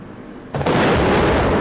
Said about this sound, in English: Footage of a block of flats rocks as an explosion erupts nearby.